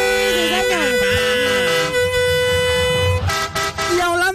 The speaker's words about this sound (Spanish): Vamos eche a pito ese camión, eche pito ese camión.